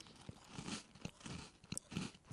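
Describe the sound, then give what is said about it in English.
Crisp crunching as someone bites into and chews a crunchy cocoa cream biscuit, with several short, dry crackles in an uneven rhythm, faint and close with no talking. “I'm going to go in there and give it a crunch and see if I end up with crumbs all over the desk”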